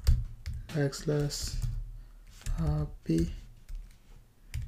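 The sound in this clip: Typing on a computer keyboard while entering code text: soft, quick clicks of keys running beneath a person talking.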